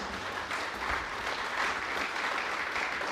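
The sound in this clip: A studio audience breaks into applause for a guest, a steady, even wash of many hands clapping at a moderate level for the whole stretch.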